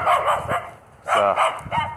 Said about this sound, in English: Dog barks at me